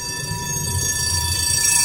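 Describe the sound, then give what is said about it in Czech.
An autonomous tram approaches on rails during a test run, heard as a steady low rumble with a sustained high electric whine that grows slightly louder throughout, with no voices. “K nám se právě blíží autonomní tramvaj”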